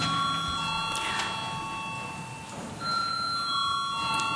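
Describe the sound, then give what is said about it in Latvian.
An electric bell rings in a parliament chamber just before a vote, a continuous, steady, high-pitched ringing that lasts throughout over a dense background hiss. “Paldies, lūdzu zvanu.”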